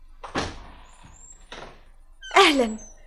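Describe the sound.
A door in a radio drama about the Prophet's Hijra: two dull wooden thuds spaced about a second apart, then a louder knock as a voice speaks.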